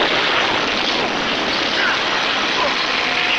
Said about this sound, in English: Thruster's activating now. Steadying the throttles. Confounded contraptions.